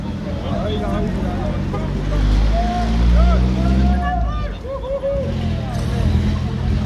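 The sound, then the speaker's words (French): A yellow truck approaches and drives past on a street, its low rumble swelling to a peak midway before easing off, over a steady bed of crowd chatter and traffic noise. “Donc là, il y a le camion jaune qui est en train d'arriver. Le camion qui arrive et c'est passé.”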